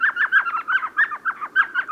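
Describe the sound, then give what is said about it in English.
A tiny elf owl, the smallest owl species, calls at twilight from a hole in a sycamore along a dry West Texas stream bed. Many quick, high chirping yips follow in a steady rhythm, with no voices. “along a dry West Texas stream bed, a tiny owl peers out from a hole in a sycamore tree. It's an elf owl, the smallest species of owl in the world.”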